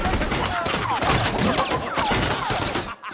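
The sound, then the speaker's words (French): A heavy large-calibre machine gun fires on a village in a Lucky Luke film scene, a dense, relentless stream of rapid shots and thuds with no pause, loud throughout. “Joe Dalton va chercher une mitrailleuse maxi gros calibre, genre grosse Bertha, tu vois, mais en sulfateuse. Et il se met à tirer à vue sur El Tarlo dans une séquence interminable.”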